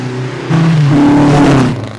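A 3-liter engine revs toward 14,000 RPM, a loud whining tone that climbs, holds at a high pitch, then drops away.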